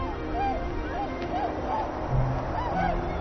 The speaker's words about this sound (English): Tundra swans are long-distance migrants from northern Siberia.